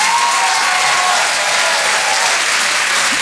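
A comedy club audience applauds and cheers a performer taking the stage, dense, loud and steady clapping that continues without a break.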